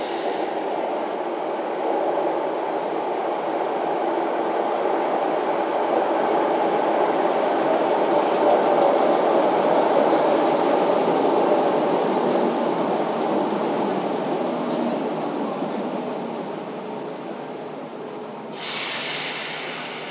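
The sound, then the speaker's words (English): Steady, fairly loud rumble of a train pulling into a platform at St Pancras International station, continuous and smooth throughout, with a brief brighter hiss near the end. “The main noises are a train coming in, people on the platform, where the train isn't making a heck of a noise, you can hear the escalators in the background as well.”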